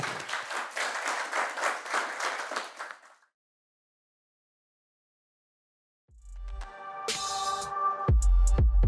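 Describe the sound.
An audience at the University of Sydney applauds after a talk, a short burst of clapping lasting about three seconds that cuts to silence, after which music begins.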